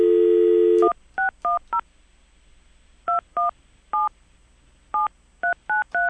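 A steady dial tone cuts off, followed by ten telephone keypad beeps, short electronic tones in uneven clusters with brief pauses between groups, over a faint low hum.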